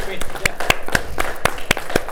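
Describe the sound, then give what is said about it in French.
Scattered applause at a council meeting, a few people clapping in sharp, separate claps at a fairly even pace, with voices murmuring beneath. “On pourra peut-être, même si on est enregistré, là, d'applaudir, parce que ça fait quand même une vingtaine d'années.”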